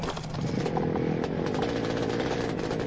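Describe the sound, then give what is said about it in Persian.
A small propeller airplane engine starts and settles into a loud, steady buzzing drone that carries through to the end without a break. “موتور روشن میشه. آماده پروازه. گازشو چک میکنه.”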